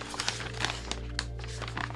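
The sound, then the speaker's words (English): Paper rustling and tearing as an envelope is opened: several quiet, scattered crinkles and sharp rips over a steady low hum, with no one talking. “but I guess I have to open it. Also in the envelope, another envelope.”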